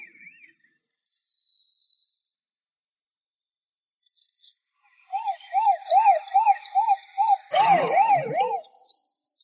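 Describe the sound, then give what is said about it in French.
A fire truck siren wails in a loud, rapid, repeated up-and-down warble, coming after a few brief electronic tones, with a short noisy burst partway through. “Le camion de pompier allume ses feux de détresse et ses sirènes.”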